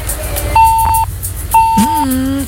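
Two evenly spaced, steady electronic beeps of equal length, each held about half a second, as a telephone line disconnects during a radio call-in, over a low background hum.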